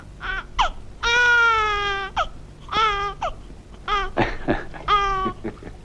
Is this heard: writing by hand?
no